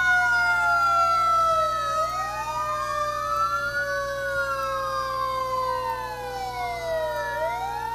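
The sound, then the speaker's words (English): An old red fire truck's siren wails loudly and continuously, its pitch sweeping up and down in overlapping rising and falling tones throughout. “Here comes the red fire truck. Woo, that's loud. That's an old one.”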